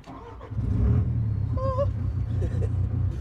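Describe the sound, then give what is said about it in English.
A tracked excavator engine idling and working as a newcomer drives it, producing a steady, deep diesel rumble throughout, with a brief high whine partway through. “I've never shared a track hoe with someone. Oh my god! I'm driving a track hoe.”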